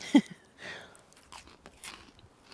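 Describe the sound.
Someone bites into and chews cake with frozen blueberries: a sharp bite near the start, then soft, scattered chewing and crunching sounds, faint and irregular, with no talk.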